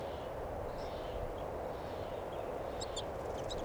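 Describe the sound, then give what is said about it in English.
Faint, high, short chirps come from a flock of crossbills in a tree, including a begging young bird. A few thin notes cluster near the end over steady rushing noise. “there's a flock of crossbills right in the tree here right now. And one of them sounded like a begging baby.”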